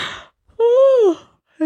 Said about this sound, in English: That's like the fifth time I've yawned.